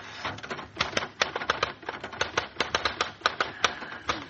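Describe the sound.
Typing on a mechanical machine: many sharp, clacking keystrokes in an uneven, fairly quick rhythm, with occasional brief pauses.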